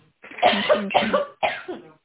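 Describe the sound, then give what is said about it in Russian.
A person coughs in three harsh, loud bursts separated by brief pauses during a business conversation, each burst rough and throaty. “Сейчас, одну минуту, откашляйте, извините.”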